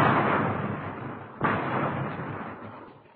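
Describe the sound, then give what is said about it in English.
Heavy gunfire erupts during a shootout around a house with a front porch: a dense, continuous roar of shots that fades slightly, then jumps back to full loudness with a sharp burst about midway before slowly tapering off. “Here's a machine gun”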